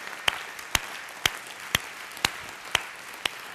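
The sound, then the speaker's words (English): An audience standing to honor a group claps in unison: seven sharp, evenly spaced claps about two per second, over a low, steady crowd murmur. “If you feel comfortable, would you just stand and just applaud them?”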